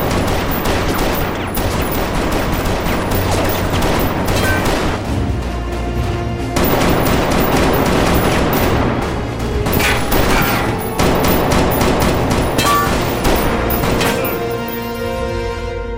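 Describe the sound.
Gunfire fills a shootout as rapid, overlapping shots crack and boom densely. The shots stay loud and continuous from start to finish, in bursts without clear pauses.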